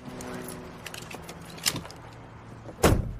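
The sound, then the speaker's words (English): Someone getting into a gray sedan and fastening a seatbelt: faint rustling and light metallic jingling, a brief clack midway, then a louder sharp clunk near the end. “Kat and Brock return to their gray sedan. Keeping his head bowed, Brock climbs into the driver's seat as Kat puts on her seatbelt.”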